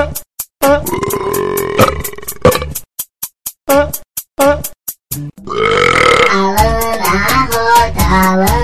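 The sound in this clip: Long, loud, deep burps sound one after another over a punk track, with sharp, rapid percussive beats and brief drops to near silence.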